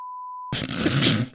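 A single steady mid-pitched censorship bleep holds for about half a second, then cuts into a loud, rough, noisy burst that continues to the end.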